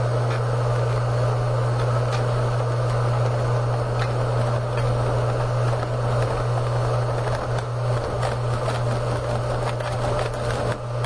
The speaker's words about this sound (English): Same bicycle wheel, but I'm going to spin it up.